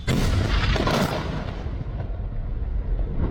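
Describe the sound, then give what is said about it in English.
An Israeli airstrike explodes on a building in Tyre, southern Lebanon, a single heavy, loud blast that becomes a broad rumbling roar, with the sharp high end dulling as it fades over a few seconds. “And that was the sound of an Israeli strike on a building in one of the largest cities in the country, Tyre in the south.”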